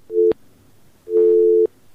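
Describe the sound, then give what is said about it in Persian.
Telephone tones after a caller's line drops during a call-in radio show: a short steady beep, then a longer one, each cut off by a sharp click. “تماس شان قطع شد”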